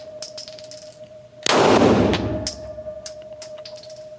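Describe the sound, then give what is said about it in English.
A single loud gunshot fired at about four feet in a stippling distance test. It is a sharp, powerful blast with a ringing tail, set among a few faint, high metallic pings before and after. “A test to try to determine just how close Colleen was to Rob when she shot him.”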